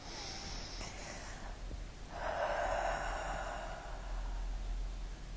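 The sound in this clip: A slow, deep breath during a guided meditation: a soft, airy rush of air swells about two seconds in and continues steadily to the end, with quieter breath noise before it and no speech.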